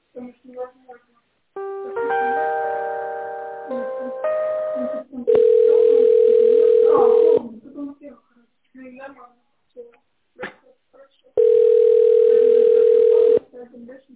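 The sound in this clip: Ringback tone plays while an office phone call is transferred: two long, steady beeps of about two seconds each, separated by brief talk and other tones.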